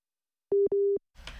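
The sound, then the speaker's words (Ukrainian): A telephone busy tone sounds after a dropped call: two steady mid-pitched beeps, the second longer, followed by a short burst of rustling noise. “Перервався зв'язок”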